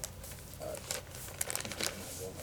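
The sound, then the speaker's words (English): Paper notes being shuffled, giving a run of dry rustling and crinkling bursts of varied loudness with no clear break. “Excuse me a second while I shuffle my papers.”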